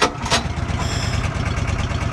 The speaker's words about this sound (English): Sabin starts the compressor.